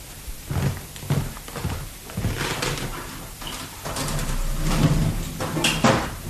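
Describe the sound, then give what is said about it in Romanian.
The entrance to catacombs is opened: a few dull knocks, then a long, rough scraping rumble that stays loud to the end, with scattered sharper knocks on top. “Un moment. Ca să deschid intrarea spre catacombe.”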